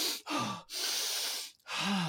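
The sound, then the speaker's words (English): Someone breathes heavily to catch their breath: a few faint, airy breaths in a row, some with a slight voiced rasp, and one longer exhale in the middle. “So I got to get my breath back.”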